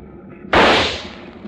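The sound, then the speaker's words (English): A single rifle shot fired from a boat at sea at a finned animal in the water: one sudden loud crack that booms and fades out over about a second, with no voices. “Good shooting. You hit him right forward to the dorsal fin.”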